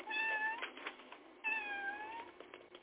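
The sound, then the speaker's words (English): A pet cat meows twice, each a long, clear, tonal cry, separated by a short pause with faint rustling between them. “That's my cat getting on my nerve.”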